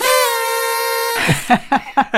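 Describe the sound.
A single horn toot, one steady, buzzy tone lasting about a second, followed by a voice talking.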